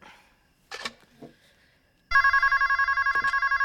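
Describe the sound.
A bedside telephone rings at night in a bedroom with a loud, rapid electronic trill that pulses steadily. It starts abruptly after a couple of quiet seconds holding a few soft knocks and rustles.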